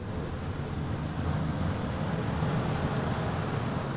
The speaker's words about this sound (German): Dass alle Fenster geschlossen sind. Ja, und die Bürsten fahren jetzt in verschiedene...